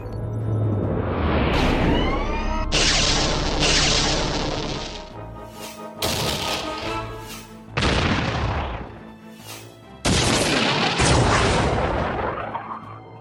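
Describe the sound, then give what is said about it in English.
A starship being destroyed: a series of loud, booming blasts, each swelling with a whooshing roar before the next burst hits, several in succession without voices. “Ship's destroyed, ma'am.”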